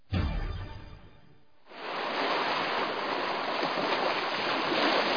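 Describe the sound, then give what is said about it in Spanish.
Steady, full rush of ocean water played in a water museum's temporary marine-life exhibit. It swells in after a deep rumble that fades over the first seconds, then holds loud and even to the end. “Los sonidos del océano en un solo lugar, en el Yacu Museo del Agua.”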